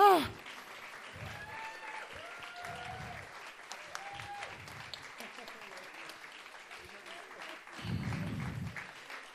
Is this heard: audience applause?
yes